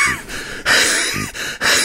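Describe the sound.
Imitated panting of an exhausted runner just after a 10,000-metre race: a voice mimics heavy, breathy gasps in several quick bursts with short pauses between, loud and with no words.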